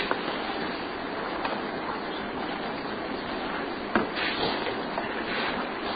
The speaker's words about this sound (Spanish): El agua está presente ya aquí. Si escucháis atentamente. ¿Habéis oído?